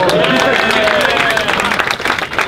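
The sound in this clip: An audience claps at a request to mark a performer's 20th birthday. The clapping is loud and dense, with crowd voices mixed in, and grows more uneven and patchy toward the end.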